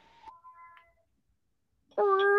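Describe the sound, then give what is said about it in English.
A domestic cat meows: faint, thin calls come first, then a pause, then a loud, sustained, tonal meow that runs to the end. “that's my other cat.”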